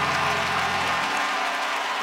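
An audience claps at a gospel praise event, with dense, continuous applause that stays loud and even throughout, without clear individual claps.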